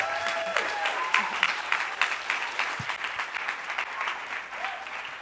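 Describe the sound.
Applause from a church service audience welcomes a speaker to the stage: steady, fairly faint clapping with a few louder bursts, continuing throughout.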